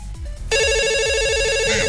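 A telephone rings for an incoming call with a loud, bright electronic ringtone in a rapid repeating warble. It cuts in after half a second over a low rhythmic beat.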